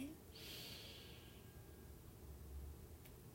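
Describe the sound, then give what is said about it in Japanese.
A slow, soft inhalation during a relaxation breathing exercise, an airy hiss that rises about half a second in and fades after roughly a second, faint over steady low background noise. “吐き切ります笑顔で吸って”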